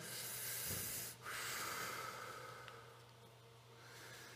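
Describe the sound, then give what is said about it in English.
A person draws in a deep breath during guided breathing in a sermon: a long, airy hiss that lasts several seconds, is briefly broken near the start, then continues and slowly eases off. “Breathe in, take a breath.”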